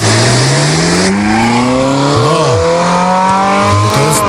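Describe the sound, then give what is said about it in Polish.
A classic petrol Ferrari sports car engine revs hard and loud, its harmonic roar climbing steadily in pitch, with a couple of short throttle blips partway through and near the end, and no voices. “teraz zrobimy mały radiowy eksperyment, bo klasyczne Ferrari, to takie klasyczne, brzmi tak...”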